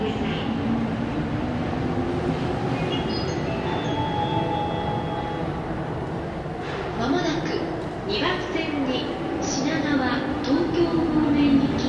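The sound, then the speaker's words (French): Steady rumble of a Chuo Line train travelling toward Nakano station in Tokyo, with thin metallic squeals and tones riding above the continuous noise and voices faintly mixed in. “je vais emprunter la Shuo Line, là c'est une ligne de train, et m'arrêter à la première station, c'est-à-dire à la gare de Nakano.”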